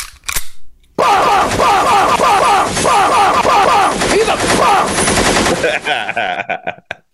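Rapid machine gun fire played as a sound effect: loud, dense bursts of shots rattle almost continuously for about five seconds, then break into a few scattered trailing pops.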